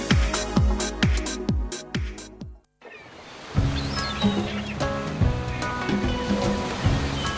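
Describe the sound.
Sea waves in a radio advertisement, a steady washing rush of surf under music, following a run of plucked notes that stops briefly before the waves and music take over.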